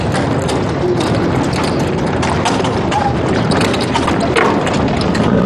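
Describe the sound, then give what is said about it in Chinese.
A horse-drawn carriage rattles along in a steady, dense clatter of wheels and hooves that never pauses. “把马车搁这边，快点快点快点”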